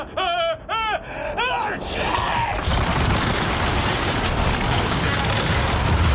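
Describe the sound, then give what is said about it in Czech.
In a radio drama, a ship's mast breaks with a sudden loud crash, followed by sustained roaring noise. A voice speaks briefly just before the impact. “Ale co ta rána? Mastnej Bob asi tvýho strejčka praštil. Ale kde pak, tohle byl stožár.”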